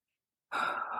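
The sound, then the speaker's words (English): A single slow, deep breath drawn in through the nose, taken as a stress-relief exercise, begins abruptly and holds as a steady, airy rush to the end, with no talk over it. “just slowing your breathing down, just taking a nice, slow, deep breath in through your nose”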